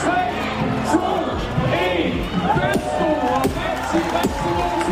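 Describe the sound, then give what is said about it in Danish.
A crowd counts down together to the start of the Royal Run race in Ribe, many voices shouting at once in a loud, dense mass. Scattered sharp knocks and claps cut through the crowd. “Ja, det er lyden af Royal Run, der bliver talt ned til i Ribe, hvor Kong Frederik var mødt op for at løbe med på One Mile-distancen.”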